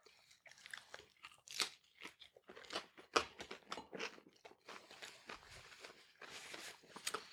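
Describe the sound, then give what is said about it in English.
Crunchy biting and chewing of a Philly cheesesteak pizza slice: many irregular crisp crackling bursts and softer mouth sounds come in a steady, uneven stream throughout at moderate loudness. “Let's take a bite. Yes, sir. Oh my god. Which one are you doing? I'm gonna go for the Philly cheesesteak first.”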